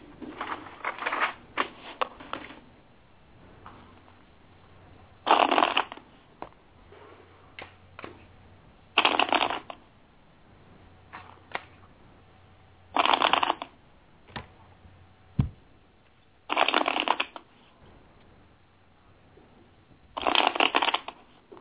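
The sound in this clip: Tarot cards being shuffled in several brisk, crisp bursts spread evenly apart, with quieter card handling and light tapping between each shuffle.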